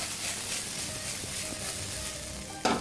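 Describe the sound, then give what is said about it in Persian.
Cooked broccoli sizzles as it is added to a hot wok. A steady hiss of frying runs throughout, with faint clinks and a sharper burst near the end. “من اینجا بروکلی دارم، بروکلی پخته شده. اینم داخل وکم اضافه میکنم.”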